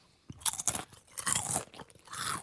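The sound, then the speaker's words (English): Potato chips crunched close to the microphone: a few bursts of crisp, crackling bites and chewing, fairly soft overall, with no talk. “People eat the chip and then they crunch into the microphone and people like this sort of sound.”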